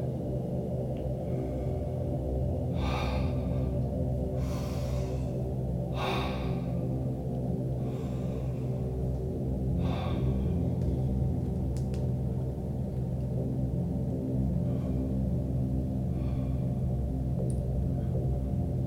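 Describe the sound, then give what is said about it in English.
Deep guided breathing, with several slow, airy inhales and exhales rising at intervals over a steady, sustained musical drone that continues throughout. “Keep breathing on your own. Find your own flow. Go with the flow. Deep breaths, fully in, and release.”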